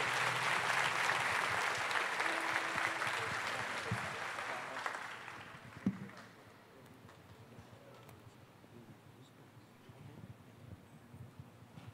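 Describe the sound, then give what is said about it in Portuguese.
An audience claps in a church service, with dense, loud applause for about five seconds that gradually thins and fades into quiet background noise, marked by a single sharp thud. “Dê uma salva de palmas ao Senhor por essa.”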